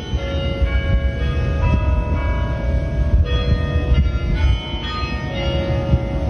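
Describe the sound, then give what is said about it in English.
Bells ring out from a university bell tower in Michigan, playing the melody of a Jewish prayer of healing: sustained, overlapping tones form a continuous, fairly loud wash of ringing with no voices. “That is the sound of bells at the University of Michigan Bell Tower.”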